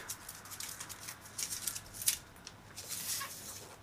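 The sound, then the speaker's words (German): Soft paper rustling as a card is slid out of a paper envelope: faint, scattered crinkles and scrapes with a few slightly sharper rasps near the middle. “Okay, jetzt kommt deine Frage. Ich ziehe sie aus dem Umschlag.”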